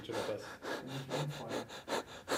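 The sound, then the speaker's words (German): A person hyperventilates on purpose, taking many quick, forced breaths in a steady rapid rhythm, each a short airy puff, faint and close. “Jetzt probiere ich es mal, hyperventilieren, also schnell atmen und dann nochmal testen.”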